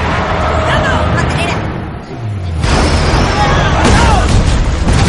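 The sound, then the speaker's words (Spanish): A truck crashes through the barriers at an armed checkpoint in a war action film: a roaring engine drone builds, then a heavy, noisy impact hits around the midpoint, followed by sustained loud rumbling and clatter. “Lin acelera. El camión atraviesa las vallas.”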